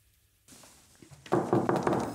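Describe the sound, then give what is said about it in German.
Knocking on the door of a mayor's office as the town treasurer arrives: a few firm, evenly spaced knocks on wood follow a brief quiet stretch, loud and alone with no voices. “Wenn der Kämmerer klopft, wird es ernst im Büro vom Bürgermeister in Bad Karlshafen.”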